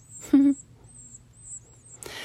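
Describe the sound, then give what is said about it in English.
Hungry baby birds call from a nest as their mother arrives with a bug, giving thin, faint, high-pitched peeps that repeat throughout, with a brief louder burst near the end. “oh, there's the mama with a bug in her mouth. Maybe you can hear them, I don't know. The little babies, hungry.”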